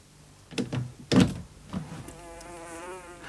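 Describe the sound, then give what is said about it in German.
A housefly buzzes as it slips out, its faint, wavering drone rising after a few soft thumps. “Oh, Wetter, da gebe ich nicht acht und meine Fliege schlüpft hinaus.”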